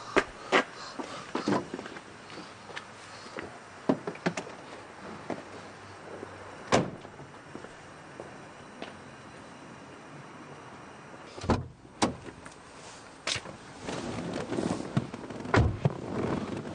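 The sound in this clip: A car door opens and closes with a few sharp clicks and thuds scattered over a steady, noisy background, including one heavier slam near the end.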